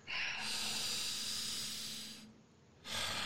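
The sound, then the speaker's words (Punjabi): A deep breath is drawn in during a church prayer service, a long, airy inhale lasting about two seconds, then a short pause before another breath begins. “Take a deep breath.”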